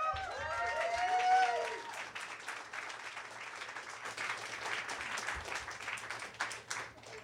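Audience applause at a reading event as the next reader is welcomed: sustained, fairly soft clapping runs the whole length, with a brief whoop or cheer near the start.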